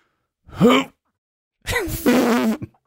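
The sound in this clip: A voice imitates a funny fart in two buzzy bursts: a short blurt rising in pitch, then after a pause a longer, wavering, squeaky blurt.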